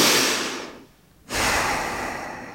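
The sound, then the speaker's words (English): A deep breath drawn in and let out through the nose during a guided breathing exercise: two long, soft, airy rushes of breath separated by a short silent pause. “Then deep cleansing breath, inhale and exhale through your nose.”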